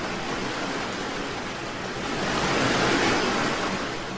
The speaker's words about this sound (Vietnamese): Lại một con sóng nữa cuộn lên làm cả bọn ướt nhẹp khắp đầu khắp mặt.